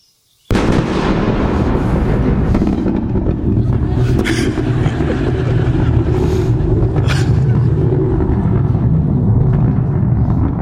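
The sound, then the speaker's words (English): A sonic boom from a Falcon 9 rocket booster landing, about 5 miles from the landing zone, starts with an abrupt loud bang and is followed by a continuous deep rumbling roar that lasts to the end. “Now, the video I'll play you features an undergrad researcher hearing his first sonic boom 5 miles away from a Falcon 9 landing zone.”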